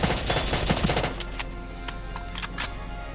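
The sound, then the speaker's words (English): Rapid automatic gunfire from a shock trooper in a tactical war video game: a fast, loud burst of rattling shots for about a second, then a fading tail with a few fainter cracks. “I need 20 shots to kill him, 20 shots total. But I think all 20 shots might hit him, so let's try it.”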